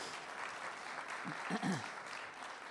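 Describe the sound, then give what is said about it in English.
Audience applause from the MCC Tampa church audience: steady, dense clapping throughout, with a voice briefly audible over it midway. “We are proud of you, MCC Tampa. We are grateful for you. Yeah, give yourselves a big hand.”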